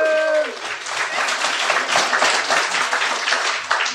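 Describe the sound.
Steady audience applause for a sound technician at a live comedy show in Pasadena. The dense, even clapping runs for about four seconds, with a brief voice at the very start.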